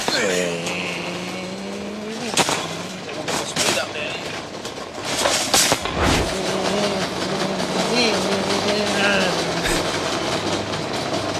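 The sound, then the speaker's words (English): A man vocally imitates a car engine while pushing a shopping trolley around a Coles supermarket in Newmarket. The drone is loud, with a wavering, revving pitch and a few sharp bursts, over a steady background hum. “you still make engine noises when pushing a trolley around”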